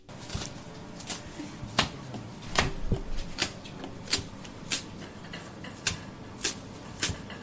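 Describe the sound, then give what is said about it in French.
Fresh chives snipped with scissors by a cook: a steady series of crisp, dry snips at an even pace, fairly faint, with no talk. “Je suis en train de ciseler la ciboulette fraîche pour l'intégrer d'une part dans mes boulettes.”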